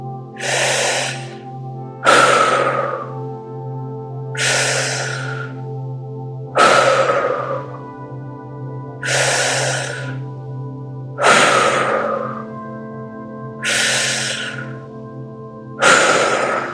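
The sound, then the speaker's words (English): Eight slow, deep breaths from a guided breathwork exercise come at even intervals about two seconds apart, each a loud, airy rush that swells and fades, over a steady low drone with no talk. “That's it. Keeping that breath moving”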